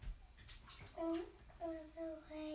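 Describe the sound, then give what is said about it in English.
Water moving in a bathtub as a child sits and plays in the bath. The water sounds are faint and sit under the child's high, sing-song vocal sounds and squeaks. “Are you doing any cleaning in this bath, or are you just sitting in it?”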